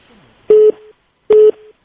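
A telephone busy tone sounds after a call from Pakistan is cut off. Two identical, loud, steady beeps come at an even spacing, each trailing off faintly.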